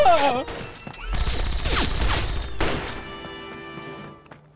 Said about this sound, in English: Open fire!